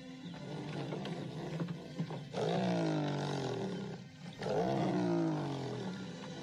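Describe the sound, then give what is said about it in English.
A lion roars in a video of a lion riding a skateboard, giving two long, deep, rumbling roars in a row, each sliding slightly downward in pitch, with rougher, quieter grunting before them. “Yeah, but it's a lion riding a skateboard. It's the cutest thing I've ever seen.”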